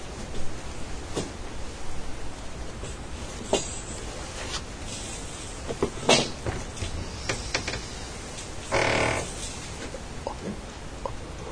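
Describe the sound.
A cupboard is opened and closed while someone fetches an item from it: a few sharp knocks and thuds, then a brief rushing scrape, over a steady background hiss.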